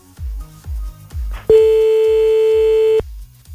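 A telephone ringback tone on an outgoing call sounds as one long, steady, loud tone lasting about a second and a half. It is set between rhythmic low thumping beats that play before and after it.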